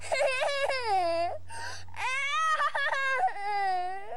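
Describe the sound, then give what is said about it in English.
A three-year-old child whining in a home video, with drawn-out, wavering high-pitched cries, a brief pause, then more of the same strained wailing. “This will show you how when you were whining when you were a little kid.”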